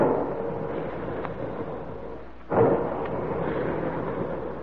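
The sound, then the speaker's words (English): Deep rumbling booms of big guns firing roll on continuously, with one sudden louder blast near the middle before the heavy rumble carries on. “There go the big guns”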